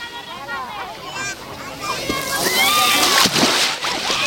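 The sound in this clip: Sea water sloshing and splashing as it is stirred by hand at a crowded beach on a hot August day. A continuous, busy wash of sloshes grows louder in the second half, with voices mixed in throughout.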